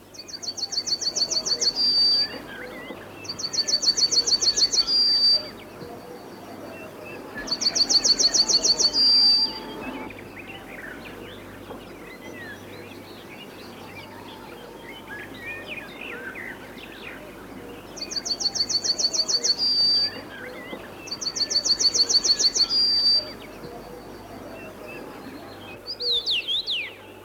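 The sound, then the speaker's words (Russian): A male yellow-breasted bunting sings from a treetop, delivering about six high, bright, twittering song phrases separated by pauses of varying length over faint background noise. “Это, сидя на верхушке деревца, поет желтогрудый самец овсянки.”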